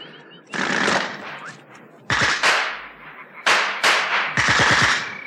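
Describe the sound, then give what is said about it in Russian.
Several loud, sharp bursts of gunfire, some in rapid clusters of cracks, separated by brief quieter gaps. “Что произошло? Ни у Алехина, ни у Таманцева не было с собой автоматов. Кто стрелял?”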